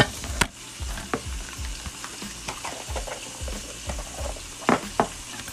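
Chorizo frying in butter in a pan for a simple breakfast: a steady crackling sizzle under scraping stir strokes and a few sharp clinks of a utensil against the pan, with no talk.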